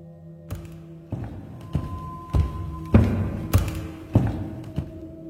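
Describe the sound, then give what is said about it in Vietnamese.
Wooden stair steps creak and thud under footsteps in a loft hung with drying animal pelts. A steady series of evenly spaced, low knocking steps, each followed by a short groaning creak. “Bậc thang gỗ kêu lên từng tiếng kéo kẹt.”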